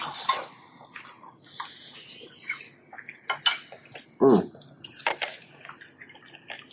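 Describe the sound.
Chewing and wet mouth clicks of someone eating eggs cooked with margarine and butter: many irregular, brief smacking sounds scattered throughout, fairly soft, with one slightly louder burst partway through.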